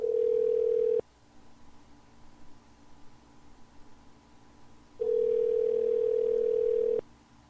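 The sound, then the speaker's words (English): A telephone ringback tone sounds on the line while calling a phone that goes unanswered: two steady, even-pitched tones separated by a long silent gap, the first cut short at the start, the second lasting about two seconds, with no talk. “Get up and answer your phone,”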